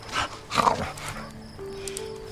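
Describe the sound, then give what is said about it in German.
A dog gives two short, rough vocal bursts close together near the start. Quieter, softer background sound follows. “Ah, ein Hund. Und der tut wirklich nichts.”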